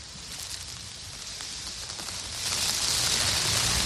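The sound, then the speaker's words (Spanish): Heavy rain pours down on a Madrid street, a dense, steady hiss of drops that swells noticeably louder partway through and then holds. No voices can be made out. “Está lloviendo. Hace 5 minutos ha comenzado a diluviar.”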